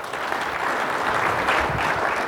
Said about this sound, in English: Give them a nice round of applause